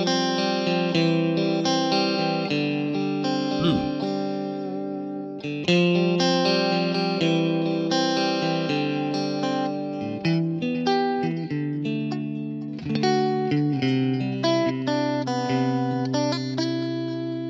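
Electric guitar through a Divided by 13 amp profile on a Kemper Profiler, bright and sparkling with a slightly treated, Strat-like edge and chorus-like shimmer, playing a continuous run of ringing chords and notes with no voices.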